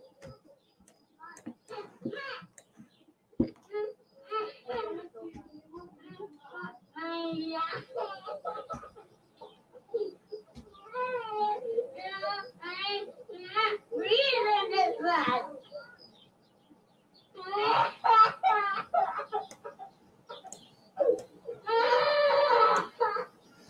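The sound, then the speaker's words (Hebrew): A little girl cries to her mother that she cannot breathe. High-pitched sobbing, whimpering and wailing come in halting bursts, broken by brief gasping pauses. “מה שבעצם ראינו כאן זה ילדה קטנה שבוכה לאמא שהיא לא יכולה לנשום”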